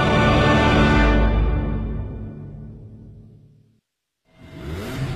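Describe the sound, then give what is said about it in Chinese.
Car engine revving and accelerating in a loud, full roar that gradually fades away, drops to a brief silence, then surges back up again. “加足马力，准备进入潮流座驾快车通道。”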